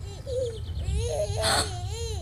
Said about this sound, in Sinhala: බබා මායෙන් අඩන්න ගත්තේ.